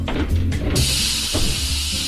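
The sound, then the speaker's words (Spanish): Steam hisses loudly as an oven is opened on a chicken that is nearly done. A few low knocks and shuffles come first, then the bright, steady hiss starts suddenly and runs on evenly to the end. “¡Al abrir el horno!”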